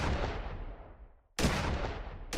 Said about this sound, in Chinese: 就拎起他经常摆在睡房角落的枪，向黑暗处射了几发六号弹。